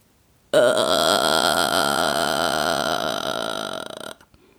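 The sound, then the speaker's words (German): A female singer demonstrates the vocal fry technique: a single sustained, creaky, rattling vocal tone that starts abruptly, holds loud and steady for about three and a half seconds, then thins out and stops, heard alone. “Die nächste Technik ist einer meiner Lieblingstechniken, der sogenannte Vocal Fry oder Schnarregister. Ich mache es euch einmal vor, dann wisst ihr, was ich meine.”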